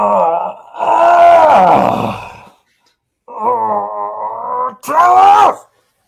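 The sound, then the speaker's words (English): Low, soft groaning of an injured person inside a ship, several drawn-out moaning bursts rising and falling in pitch, with a brief silence partway through. “all the rest of you hear like a low kind of soft groaning coming from inside of the ship, like someone is hurt.”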